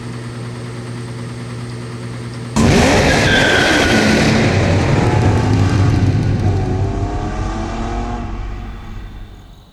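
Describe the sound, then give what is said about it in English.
A Lamborghini sports car bursts into a loud engine roar after a steady low hum. Whining tones sweep up and down in pitch, then the roar gradually fades near the end. “Don't you love Lamborghinis like I do? I really love a Lamborghini.”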